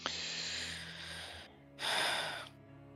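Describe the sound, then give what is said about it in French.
Someone catches their breath with two quiet, heavy breaths, a long one and then a stronger, shorter one, with no talking. “Je vais reprendre mon souffle, mes, mes esprits.”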